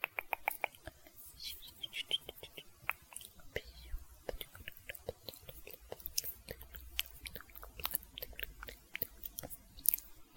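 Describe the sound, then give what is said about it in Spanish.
Close, wet mouth sounds of someone eating ice cream for ASMR: many soft clicks, smacks and licks in an irregular, continuous pattern, quiet and intimate throughout. “si te gusta los ASMR en donde estoy comiendo”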